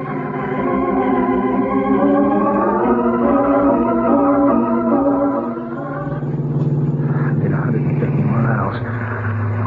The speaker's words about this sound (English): I can't go home now. I gotta drive. Drive fast.